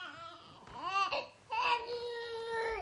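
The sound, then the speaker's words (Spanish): A baby cries in a film scene, with wavering, high-pitched wails in two bursts split by a short pause. The first burst rises and falls, and the second holds a strained, sustained cry. The crying is fairly soft throughout. “Escucha el llanto.”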